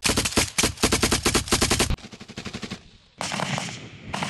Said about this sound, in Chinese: 一方面扫荡各个战斗位置，确认乌军全都离开；另一方面也在壕沟内继续对乌军开火。